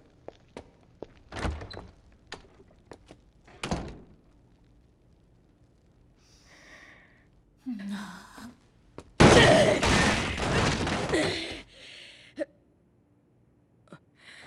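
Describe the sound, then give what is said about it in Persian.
A foot bangs against a table during a chase after a cockroach, giving a couple of heavy thuds among scattered light knocks and clatters, with a longer rough, noisy burst later on. “ببخشید یهو پام خورد. آخه سوسک اومده بود اینجا. آره طبیعیه برای یه سوسک بزنن میز و بشکنن.”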